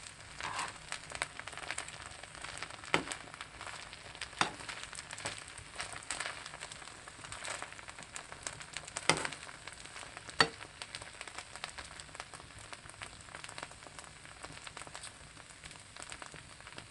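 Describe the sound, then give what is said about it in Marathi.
Okra fries in a pan over a low flame with salt added, stirred with a spoon, giving a steady, faint crackling sizzle broken by a few sharp clicks of the spoon. “आपण आता चवीनुसार मीठ घालूया। व्यवस्थित चमच्याने वरखाली परतून घेऊ।”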